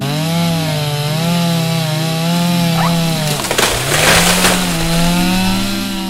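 A chainsaw cutting into a tree: a loud, steady engine drone whose pitch wavers, then dips as the chain bites into the wood. A burst of rough, crackling cutting noise comes midway before the engine steadies again.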